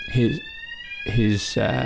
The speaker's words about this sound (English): is that a real fire alarm or a fake fire alarm? There is a fire alarm that's just gone off.